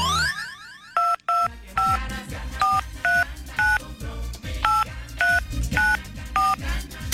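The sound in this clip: Telephone keypad tones sound as a number beginning with 315 is dialed. After a brief opening sweep comes a rapid series of about ten short, evenly spaced dual-tone beeps, each clipped and bright.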